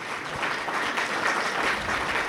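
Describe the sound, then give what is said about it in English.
Audience round of applause after a performance: many hands clapping together in a thick, sustained burst at steady volume. “Another big round of applause for Bert.”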